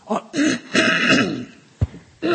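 A preacher clears his throat with a few rough, gravelly rasps, then a short sharp cough-like burst.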